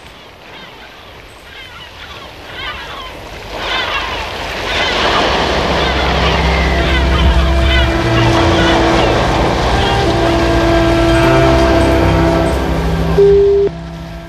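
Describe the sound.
Waves and wind wash around a boat out on the open sea, a broad rushing roar that swells after a few seconds and stays loud, with a low steady hum underneath.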